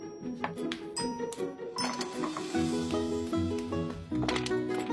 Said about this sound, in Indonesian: Nah, tolong bukain kaleng Fish and Flag ini dong.